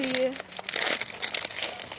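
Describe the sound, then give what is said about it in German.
Crinkling wrapper as a packet of tea is unwrapped: a dense, continuous crackle lasting about two seconds, with a brief voice heard at the start. “auspacken”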